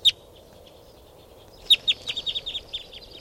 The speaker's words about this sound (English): This is the calls of the flock. They're all taking off now.